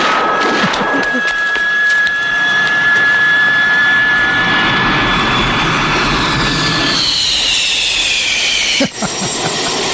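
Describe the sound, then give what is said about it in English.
Loud roaring jet thrust of a jetpack flying in a film scene: a steady, continuous blast with a high, piercing whine layered over it, which cuts out sharply for a moment near the end. “there's that Thunderball movie that has the jetpack in it. Wait a minute. Hold on a second. In case people don't remember what that's like, here comes Sean Connery now.”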